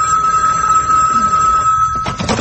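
A telephone rings in a radio comedy, a steady, continuous electric ring with a bright, buzzy edge that holds at one pitch for most of the moment before breaking off into a short burst of noise.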